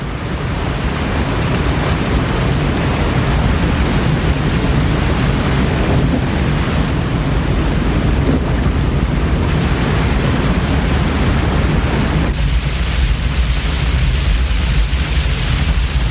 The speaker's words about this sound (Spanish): La catarata es enorme.